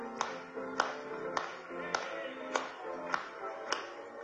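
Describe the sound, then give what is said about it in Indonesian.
Congregational hand clapping in a church service, about seven sharp, evenly spaced claps at a steady beat, fairly quiet over a soft sustained tonal background. “Mari kita bertepuk tangan bagi dia.”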